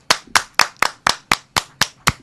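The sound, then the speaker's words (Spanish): Nine sharp hand claps from a single person, evenly spaced about a quarter second apart, offered in tribute to a Hall of Fame baseball player. “Yo creo que debemos darle un aplauso antes de irnos.”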